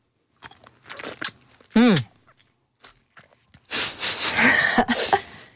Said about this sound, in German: Jetzt beiße ich mal hier in diese Pflaume rein.